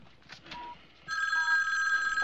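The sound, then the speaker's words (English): A shoe phone rings, a telephone hidden in a shoe. A steady, bright, high ringing tone starts partway through after quieter faint sounds and continues unbroken to the end. “Get him on the shoe phone for me right away.”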